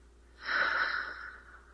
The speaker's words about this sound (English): I want you to take a deep breath. Let it out.